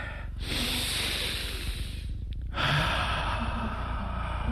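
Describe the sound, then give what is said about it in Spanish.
A person breathes in deeply before a jump, a loud, rushing airy inhale that runs about two seconds, breaks briefly, then starts again for a second long intake of breath. “¿Se siente de ahí el aliento? Inspira 3 veces. A la tercera inspiración contiene el aire”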